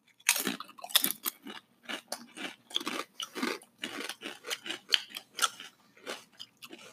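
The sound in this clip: Wasabi ranch flavored potato chips are crunched and chewed in many sharp, irregular bursts, quietly and with no talking.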